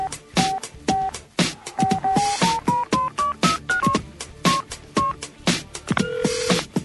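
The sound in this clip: A phone call is dialed as a run of short keypad beeps at shifting pitches, set against a steady rhythmic pattern of percussive thumps.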